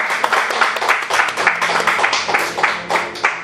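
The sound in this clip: An audience applauds in welcome for a visiting father and son, dense, steady clapping that carries on without a break across the whole moment.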